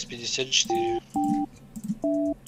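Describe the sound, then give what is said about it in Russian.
A telephone number is dialed on a keypad: three steady two-tone beeps, each about a third of a second long, separated by short gaps, with a few soft noisy clicks before the first beep. “Набираю номер.”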